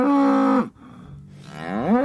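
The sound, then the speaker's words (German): Cow mooing on a farm: a loud, drawn-out moo whose pitch drops at the end, then a short pause and a second moo that climbs in pitch. “Ja, diese Kühe, die haben dann so Namen wie Pixel oder Cooper oder Rosinchen oder auch Alf.”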